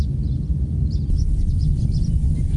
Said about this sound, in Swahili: Sauti za ndege, viumbe hai, wanyama pori, upepo na sauti za mazingira halisi husikika zaidi katika eneo hili maarufu la Engaruka.